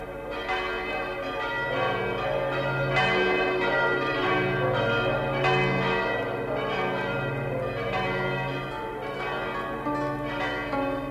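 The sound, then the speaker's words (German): New church bells in a Lower Bavarian village ring for the first time for a dozen weddings. Several bells peal together in a continuous, rich clangour of overlapping strikes and long, humming tones that stay full and even throughout. “Und als die neuen Glocken zum ersten Mal läuteten, da läuteten sie nicht nur um ihrer selbst willen, sondern auch für ein Dutzend Hochzeiten.”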